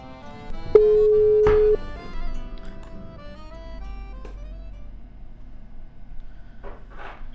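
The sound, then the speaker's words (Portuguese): A telephone line tone sounds as a call is placed to a guest: one steady electronic tone lasting about a second, followed by quiet line noise and a few faint clicks. “Vou ligar direto aqui, já vou abrir o canal e vou ligar direto pro Chico.”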